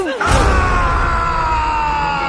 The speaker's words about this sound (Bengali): হঠাৎ এক ভয়ঙ্কর চিৎকার ধ্বনি শোনা গেল।